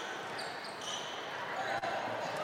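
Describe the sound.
A basketball is dribbled on the court during a high school game, its repeated bounces thudding under a commentator's steady play-by-play talk.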